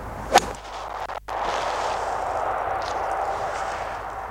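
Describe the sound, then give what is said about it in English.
A golf iron club strikes a ball in a single sharp, crisp, high-pitched crack, followed by a steady, fainter background hiss. “It's not such a hollow sound. It's a much more high-pitched iron feeling sound, which I think is really good.”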